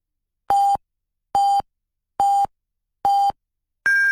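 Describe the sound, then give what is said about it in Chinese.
Hourly time-signal beeps from a Chinese regional FM radio station: five evenly spaced electronic tones, four identical mid-pitched beeps followed by a fifth, higher-pitched tone marking the hour, heard alone with no voices. “综合广播为您报时，现在是北京时间15:00。”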